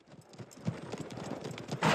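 Horses' hooves clip-clopping as several riders come round a corner and down a street, a quick run of many hoof strikes that builds and ends in a louder burst.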